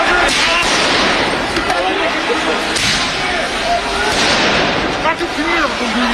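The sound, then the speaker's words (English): Police fire tear gas to clear protesters in central Paris. A few dull bangs punctuate a loud, continuous roar of crowd noise and voices. “You can hear the sound of police firing tear gas to clear protesters.”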